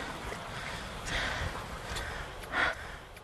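Heavy, rough breathing from a man cleaning salt pans at a salt farm at night: a few breathy bursts rise out of a steady background hiss, the last one the loudest.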